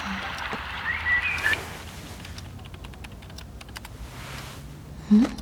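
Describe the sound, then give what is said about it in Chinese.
Typing on a computer keyboard while someone plays a video game early in the morning: a quick, faint run of light clicks through the middle, with a brief louder sound just before the end. “哪里来的键盘声？”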